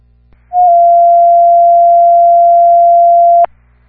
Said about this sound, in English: I'll be using my desk phone.